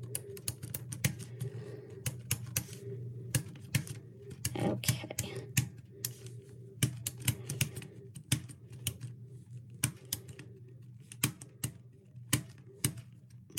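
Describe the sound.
Stylus clicking against a Versa Slate while writing nonsense text on lines three and four: many sharp, quick taps in uneven bursts over a steady low hum.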